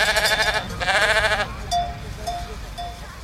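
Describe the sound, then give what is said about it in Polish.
A flock of sheep herded in highland mountain pastures bleats. Two long, loud, wavering bleats come first, followed by several shorter, quieter calls. “Najtrudniejsze to jest jakby zapanować nad tym tłumem tych owiec, jak one tak biegają, ale głównie pomagają przy tym psy też.”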